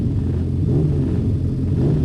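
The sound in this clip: Racing sidecar engines rev on the starting grid before a pre-TT Classic road race, making a continuous, loud, low throbbing rumble that holds steady throughout.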